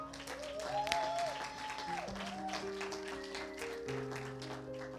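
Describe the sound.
Applause welcomes visitors at a church service, a soft, steady patter of clapping under sustained keyboard tones that hold and shift between chords.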